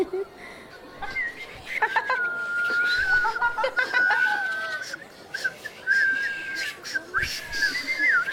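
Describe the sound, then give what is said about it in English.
Several people whistle by blowing air through their lips, producing wavering high tones that start, break off and resume in many short attempts, with background voices and some light laughter mixed in. “Whistling is very simple. You simply blow air through your lips and it will make a sound. Try it out, all of you.”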